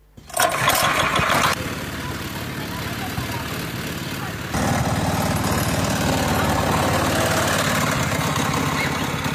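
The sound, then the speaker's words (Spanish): Small engine on a homemade motorized cooler car, running with a steady, buzzing putter that stays loud throughout and shifts in tone a couple of times. “Esta es una autoheladera hecho por nosotros, que acá le pusimos motor hace poco, pusimos este motor.”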